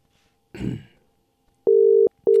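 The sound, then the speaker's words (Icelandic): Telephone tones while a call is being placed: two steady, mid-pitched beeps, the second one cut off, heard after a brief rough throat-clearing noise. “þegar ég finn hérna síman, að hringja í einn góðan mann.”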